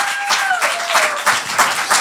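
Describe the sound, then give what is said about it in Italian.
Audience applause at a stand-up comedy show in a pub, brisk overlapping claps with a few stronger bursts, fairly loud and sustained for about two seconds. “Ira Rubini, fate un applauso.”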